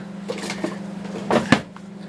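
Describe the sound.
A kitchen drawer or cupboard is opened to fetch a spatula during cooking, giving a few soft clicks and then a short clatter with a sharper knock, all over a steady low hum.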